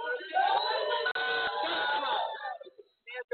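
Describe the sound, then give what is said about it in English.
An intoxicated studio audience cheering and whooping in a dense, loud burst for about two and a half seconds, then trailing off into a few short yells. “They're in studio audience. The audience is drunk. This is what happens when you have a studio audience.”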